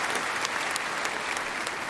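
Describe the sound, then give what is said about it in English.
Clapping from a church audience during a sermon, a brief, even patter of many hands with a few sharper claps poking through, with no talk. “Yeah, you can clap if you want.”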